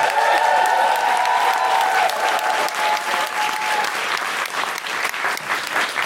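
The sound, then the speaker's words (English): An audience in a room applauds to welcome a speaker to the microphone. The clapping is loud, thick and sustained, holding steady throughout with only a slight easing toward the end. “People with us in this lovely room, would you please put your hands and your whoops and your noises together and welcome to the microphone the wonderful Deborah Frances White!”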